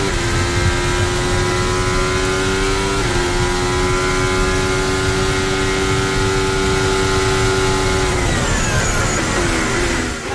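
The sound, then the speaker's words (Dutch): Formula 1 race cars braking into the Tarzan corner give a loud, sustained high-pitched engine whine that runs steadily, with the pitch dipping a few times as the cars slow. “het aanremmen voor de Tarzanbocht blijft toch een mooi moment.”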